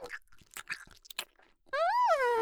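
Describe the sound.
Chewing of springy, bouncy-textured food: a run of soft, irregular crunchy bites and mouth noises, followed by a sustained voiced tone whose pitch rises and then falls.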